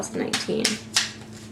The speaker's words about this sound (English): Let me get a card here.